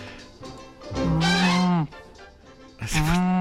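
A woman imitates a giraffe with two long, low, cow-like moos, the first drawn out over about a second and the second shorter, both loud with rich harmonics, separated by a brief pause.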